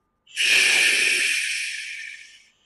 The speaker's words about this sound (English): Hold. Exhale through the mouth.